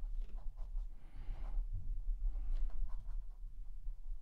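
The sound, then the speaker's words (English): Writing something down, a soft scratchy rustle of strokes in irregular bursts, fairly faint and without speech. “I'm going to write down who it is so that you know who this and is.”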